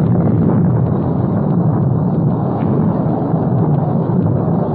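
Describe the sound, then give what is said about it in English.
Deep, heavy rumble from the 16-inch guns of a battleship firing off the east coast of North Korea, a loud, continuous low roar that holds steady throughout without a distinct separate blast. “The blast of sound you hear comes from the 16-inch guns of the Big Mole, the battleship Missouri.”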